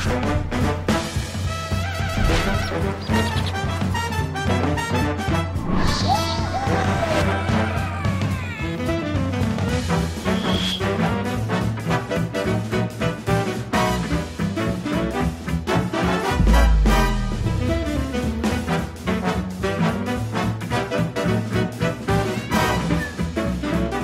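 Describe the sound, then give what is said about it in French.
An instrumental jingle, an unusual one, introduces a culture segment, with continuous melodic music and a steady beat running for about 24 seconds. “Ah oui, c'est un indicatif différent de celui que vous entendez d'habitude pour lancer la”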